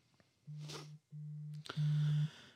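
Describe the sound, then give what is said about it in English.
Mobile phone ringing or notification tone: three sustained low-pitched electronic beeps, the last one louder, with faint rustling between them. “That's my phone. You get a phone call? I was about to say that's not me.”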